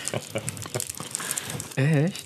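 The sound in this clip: Crinkly plastic wrapper of a Kinderriegel chocolate bar being unpacked crackles loudly in a rapid burst of rustles, then a voice cuts in.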